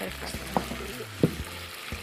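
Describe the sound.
Food sizzling and frying in a pan, a continuous soft hiss with a few faint knocks and clicks scattered through it, fairly quiet and without clear voices.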